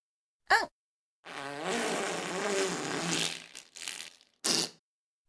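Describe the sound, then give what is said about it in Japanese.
A human fart: one long, buzzing, rasping blast with a few short sharp bursts before and after it, heard alone. “あ、また出る。おなら出ちゃうよ。ああ、出る。出る出る出る出る。ほら、出た。”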